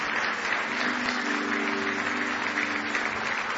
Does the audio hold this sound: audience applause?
yes